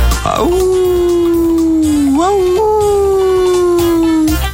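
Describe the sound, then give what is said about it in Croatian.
A wolf howls in one long, loud, unbroken call. The pitch sags slowly, lifts briefly midway, and then drifts gently downward again until it stops. “Vuk zavija.”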